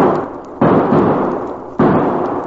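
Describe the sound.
Gunshots in a western-style radio drama, near a barn: two sudden, loud blasts, each followed by a long, noisy, slowly fading tail, with no talk over them.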